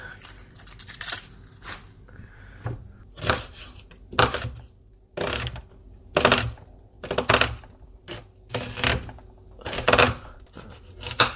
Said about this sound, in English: Is this really boring to you, just listening to a man cut brown onions?